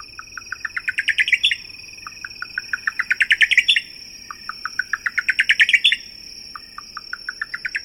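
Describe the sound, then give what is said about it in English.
A buff-collared nightjar calls at night in the desert on the Arizona–Mexico border. It repeats a phrase of clipped notes several times, each speeding up and rising into an excited burst, over a steady high-pitched insect drone. “in the desert night on the Arizona-Mexico border, a buff-collared nightjar repeats its Spanish nickname, Tucuchillo.”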